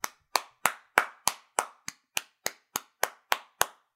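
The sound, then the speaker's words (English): Applause for Eddie Murphy, heard as thirteen evenly spaced hand claps at a slow, steady beat, each sharp and crisp with a short decay. “So I want to take this time to give Eddie a salute. Round of applause to Eddie.”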